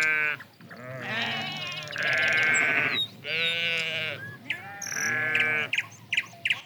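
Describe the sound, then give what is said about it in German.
Goats bleating on a pasture: a series of loud, nasal, wavering bleats, some long and drawn out and others shorter, following one another closely and ending with a few brief calls. “Jeden Morgen ging sie mit dem Geisenpeter und den Ziegen auf die Weide.”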